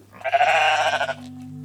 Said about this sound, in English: But currently, she's in Iceland, living just down the street from a sheep. This sheep.